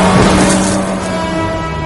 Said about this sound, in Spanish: Suben al coche. Conducen bajo la lluvia.